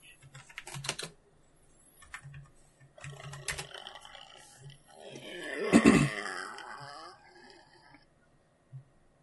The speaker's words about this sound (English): What the hell was that? It was a burp